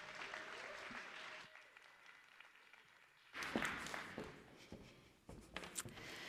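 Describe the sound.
Church audience applause welcoming a speaker to the stage: clapping that dips to a quieter patter, then swells into louder, denser applause.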